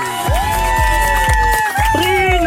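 A radio show audience cheering, a loud, continuous crowd roar with whoops that rise in pitch and hold.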